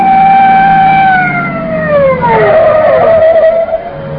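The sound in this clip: A police car siren wails loudly and steadily, then its tone drops in pitch about midway and settles at a lower, wavering note. No voices are heard over it.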